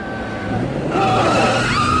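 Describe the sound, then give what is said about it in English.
Tires screech as a car swerves sharply at night, producing a loud, continuous skidding squeal over engine noise that grows stronger and more strained in the second half. “the car swerves past her.”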